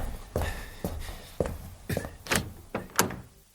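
A cabin door on a yacht being opened, heard as several separate thunks and knocks spaced about half a second apart, each sharp and fairly loud against quiet, with no talk.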